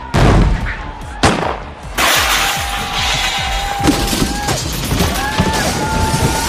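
Gunshots fired at a clay target: a few sharp, loud blasts, each followed by lingering rumble and noise, then a steady busy background.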